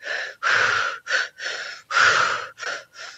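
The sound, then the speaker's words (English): Activating breathwork: a rapid breath pattern of seven forceful, gasping inhales and exhales. The breaths come in an uneven rhythm of longer and shorter bursts, clear and alone with no talk. “So what that would look like is rather than, so an activating breath pattern would be.”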